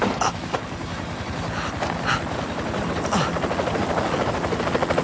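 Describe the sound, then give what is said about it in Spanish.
Helicopters landing, their rotors beating in a rapid steady thumping chop over a broad rushing whoosh, continuous and fairly loud, with no voices. “Los helicópteros aterrizan a cierta distancia”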